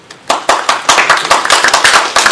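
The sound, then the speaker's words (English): An audience applauds as a speaker is welcomed to a software testing talk. After a quiet start, a brief burst of loud, distinct hand claps follows in quick succession. “The first applause. Thank you. Let's see if we'll have applause at the end too.”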